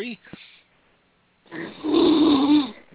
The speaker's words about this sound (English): Somebody's actually snoring.